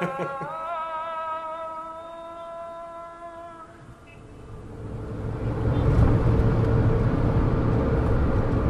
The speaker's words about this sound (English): We're on our way now from Abu Dhabi to Dubai, driving here in Olean.